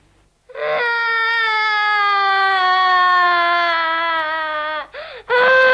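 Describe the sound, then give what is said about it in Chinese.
A person cries in a long, loud, sustained wail that slowly sinks in pitch, breaks off briefly with a short sob, then bursts into a fresh cry. “莫哭，别哭了。”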